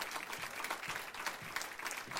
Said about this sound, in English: Let's give him a hand.